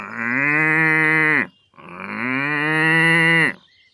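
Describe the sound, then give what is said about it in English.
Cows low in two long, deep moos separated by a short pause. Each is a sustained, rich bellow, and the second swells slightly louder before cutting off. “Are these cows?”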